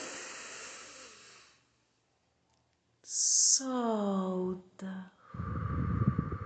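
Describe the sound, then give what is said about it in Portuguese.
Slow breathing during a guided breathing exercise: a long, airy exhale fades out, a short silence follows, a voice speaks briefly, then another breath comes in with a soft, rushing hiss. “Inspira lentamente e solta devagar. Mais uma vez. Inspira.”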